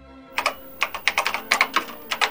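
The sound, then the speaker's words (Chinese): A father typing on a computer keyboard at home: many quick, irregular keystroke clicks in short bursts, crisp and fairly loud, with no voices. “这是爸爸在打字的声音”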